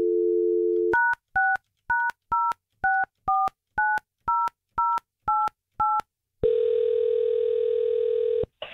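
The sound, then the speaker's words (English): Telephone dialing: a short dial tone gives way to eleven quick touch-tone beeps as a number is entered, followed by a single long, steady ringing tone on the line. “All right, give me Jacob's number. I'll tell you what, we're going to call him up.”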